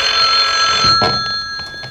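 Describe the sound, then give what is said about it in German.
A telephone rings in a headquarters office with a continuous, bright, loud ringing tone full of rich overtones. It carries on for about two seconds with slight pulsing. “Eine Stunde verging, bis endlich das Telefon in der Zentrale klingelte.”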